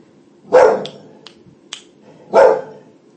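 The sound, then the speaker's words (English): Two loud, sharp dog barks separated by a pause of nearly two seconds, with a few faint clicks between them over a quiet background. “Sorry about the dog barking there.”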